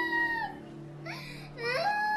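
A child crying and sobbing, with faint wavering, whimpering wails in a few short bursts whose pitch dips and rises, over a low steady hum.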